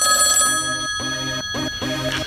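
A telephone rings with a bright, bell-like trill, repeating in loud bursts separated by short gaps, with no voices.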